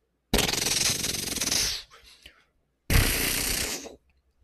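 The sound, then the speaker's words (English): A voice imitates machine gun fire in a childlike way, producing two rapid, sputtering bursts. The first burst is longer, a short breathy noise follows it, and a second, shorter burst comes after a pause. “I still got the mouth for the child level machine gun sounds.”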